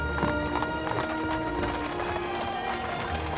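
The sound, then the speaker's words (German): A horse-drawn bridal carriage turns into a town street, its hooves beating a steady, continuous clip-clop over a dense, busy rumble. “Bald hört Toni oben an ihrem Fenster, wie der Wagen in die Mengstraße einbiegt.”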